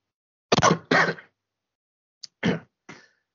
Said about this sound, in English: sorry about that, folks. The coughing's been under control.